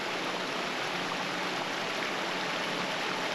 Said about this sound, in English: The thundering water plummeting down the mountainside is stronger as it flows and falls